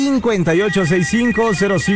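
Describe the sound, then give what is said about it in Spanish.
Telephone ringing on a radio station's call-in line: a loud electronic warbling trill that repeats in quick, even pulses throughout. “Que suene el teléfono. En este momento está sonando la línea número uno.”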